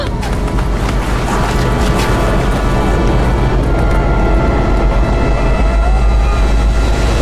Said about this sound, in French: Là-haut. Une avalanche. Vite, derrière ce rocher.